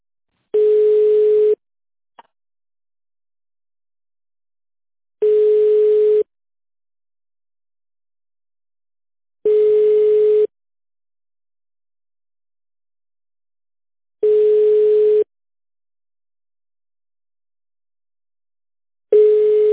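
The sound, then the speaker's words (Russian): Telephone line tone on a call being connected, five long steady beeps at one low, unchanging pitch, each lasting about a second and separated by several seconds of silence, the last one cut off. “Сейчас абонент разговаривает.”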